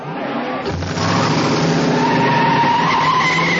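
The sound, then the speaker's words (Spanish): Tires screech as a car reverses and spins around 180 degrees during a police pursuit, a loud, sustained skid over a roaring engine that swells after the first second and stays intense to the end. “Sal Boca da marcha atrás. Gira 180 grados.”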